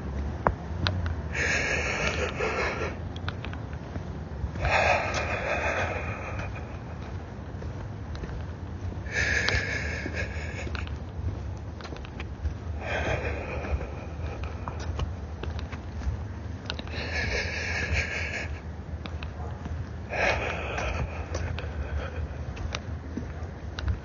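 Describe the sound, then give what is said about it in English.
Slow, deep inhales and exhales, a series of soft breathy rushes of air at a steady, unhurried pace over a low constant background hum. “Let's do three. Three deep inhales and exhales.”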